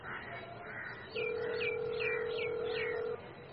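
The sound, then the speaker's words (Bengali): A steady electronic ringing tone of a phone call placed to a police officer holds evenly for about two seconds, while a few high, falling bird chirps repeat over it and faint background noise runs throughout. “দেরি না করে Aditya শিকদারকে phone করল।”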